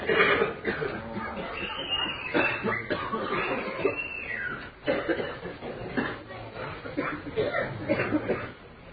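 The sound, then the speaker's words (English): Many coughs and throat-clearing bursts break out among people gathered for a kirtan in Vrindavan, overlapping and irregular at a steady loud level, with voices mixed in throughout. “It is a coughing kirtan. Somehow in Vrindavan even the coughing is quite melodious.”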